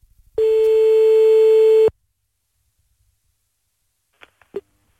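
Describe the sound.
A single steady, mid-pitched ringback tone from an outgoing telephone call lasts about a second and a half. It ends abruptly, leaving silence and a few faint clicks.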